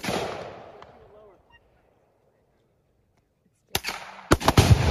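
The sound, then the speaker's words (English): Gunshots fired at a watermelon packed with Tannerite: a loud blast at the start that fades into quiet, then after a long silence a few sharp, loud cracks in quick succession near the end. “I put Tannerite in a watermelon. Oh, okay. We shoot it. It didn't explode yet.”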